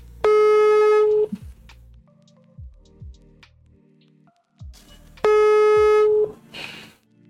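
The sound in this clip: A phone call rings out unanswered: two long, buzzy, steady ringback tones about four seconds apart, with only quiet low sounds in the gap.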